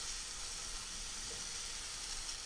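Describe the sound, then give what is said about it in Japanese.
A small amount of finely chopped ingredients stir-fries in a pan, giving a faint, steady sizzling hiss that stays even throughout with no talk over it. “ここである程度しっかり食べられるぐらいまでは炒めてしまいましょう。量が少ないので焦げつかないように気をつけてくださいね。よく混ぜながら炒めるといいと思います。”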